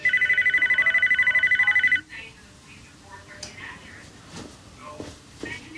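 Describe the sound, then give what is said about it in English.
A telephone rings in a living room with a rapid, steady trill of repeated bursts for about two seconds, then falls silent while a voice speaks. “will you get the phone, please?”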